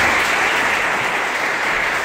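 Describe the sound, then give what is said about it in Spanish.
Audience applause at an awards ceremony, a dense, steady roar of many hands clapping at an even volume throughout the short stretch. “Un acto lleno de felicitaciones y también aplausos.”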